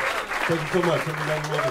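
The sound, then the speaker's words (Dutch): Applause from a New York jazz audience after a quartet set, a steady wash of clapping with a voice talking over it throughout. “Applaus bij het New Yorkse publiek”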